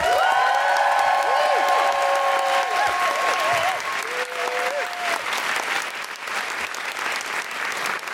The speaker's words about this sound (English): Then put your hands together and make general woohooing noise for the magnificent Jen Brister.